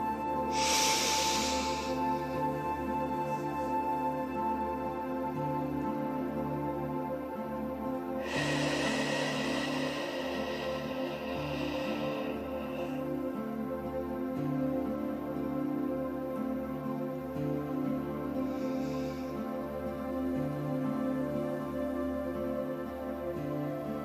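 Slow breathing in and out through an open mouth during a meditation exercise: a few soft, airy breaths, one long and drawn out, over a steady sustained tonal drone.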